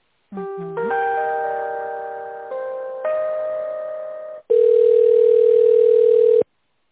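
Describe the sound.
A telephone line plays while a call is put through: a few chime-like electronic notes that step between pitches, then a louder, steady, buzzing tone held for about two seconds, with no voices.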